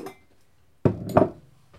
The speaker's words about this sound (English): And then we're going to mix up the oil and the maple syrup. So it's 1/2 cup of maple syrup and 1/2 cup of oil. I'm using a sunflower oil.